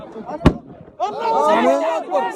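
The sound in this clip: A single sharp, loud bang from a weapon fired at the Egyptian border gate near the Sudanese crossing cuts through brief background noise. Voices then talk and overlap steadily.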